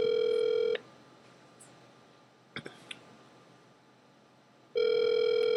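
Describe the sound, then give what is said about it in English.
A telephone call rings out: a long steady electronic ring tone, a quiet gap of a few seconds with a few faint clicks, then the ring tone starts again. No one speaks. “Matter of fact, let's call Rock Jones. Let's see if we can get a sound bite from him.”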